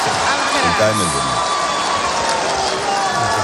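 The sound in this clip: Tennis crowd roaring and cheering at Rod Laver Arena in Melbourne during a break point for Carlos Alcaraz, a dense, loud wash of voices with a commentator talking over it.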